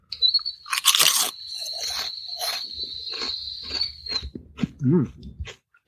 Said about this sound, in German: Also, ich wollte nämlich mal wissen, was ist das Besondere an Kesselchips? Erstmal probiere ich das mal.